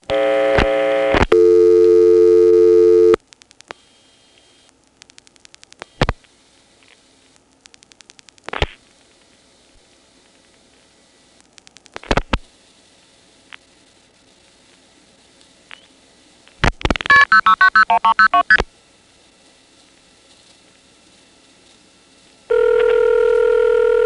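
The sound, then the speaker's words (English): Telephone exchange tones sound while 9-5 is dialed after the register sender is dropped: a steady tone opens, then sparse sharp clicks over near silence, a dense burst of warbling multifrequency tones, and another steady tone at the close. “Let's try dropping the register sender and dialing 9-5 and see what we get.”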